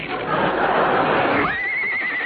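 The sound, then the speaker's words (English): A single horse whinny, starting as a breathy, noisy rush and shifting into a high, sustained wavering tone that holds to the end, fairly loud and alone. “I'll just write you a check on the side of this horse.”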